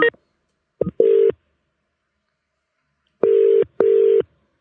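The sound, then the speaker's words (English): Telephone ringing tone of a call placed to the UK: steady low buzzing tones in short bursts, with a paired double ring near the end and no voices. “We are calling Nicole, who is in Hertfordshire in the UK.”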